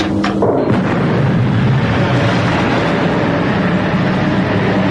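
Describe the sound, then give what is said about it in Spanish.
Loud roaring ignition and firing of a solar probe, opening with a few sharp cracks before settling into a dense, sustained rumble that stays steady to the end. “Bien, señores, la sonda solar ha sido disparada.”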